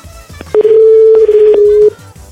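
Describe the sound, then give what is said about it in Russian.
A telephone tone sounds while a call is being dialed: one long, steady, loud, mid-pitched tone holding level for over a second, with faint clicks before and after. “Ой, зря вы ему звоните.”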